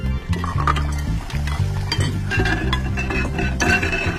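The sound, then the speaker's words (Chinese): Dishes being washed by hand, with plates and cutlery clinking and clattering in many sharp, irregular knocks that run densely through the whole clip. “快快，先刷碗。”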